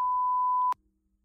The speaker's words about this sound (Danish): så er det jo klart, at du heller ikke har fundet en beep-lyd.